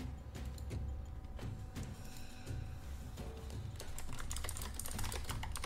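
Typing on a computer keyboard while entering moves in an online tabletop role-playing game: many quick, soft, irregular key clicks, faint and with no voices over them.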